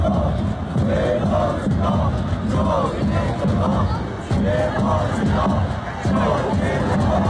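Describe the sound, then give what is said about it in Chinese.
Rhythmic chanting and cheering from the XCMG company cheering squad at a team match, loud and sustained with regular shouted beats from many voices. “那大家现在看到的是来自徐工的加油助威的方阵。”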